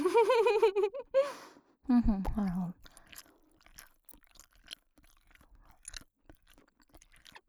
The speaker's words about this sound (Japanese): しかも耳元でくちゃくちゃするなんてちょっと恥ずかしいですね。